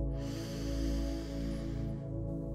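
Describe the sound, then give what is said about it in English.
A large breath drawn in: a slow, airy inhale lasting about two seconds, set over a steady, sustained low tonal drone. “Taking in another large breath”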